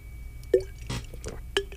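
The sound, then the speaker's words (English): A person drinking water: a few faint, short wet gulps and swallowing clicks spaced apart over quiet background. “That's the sound of me hydrating.”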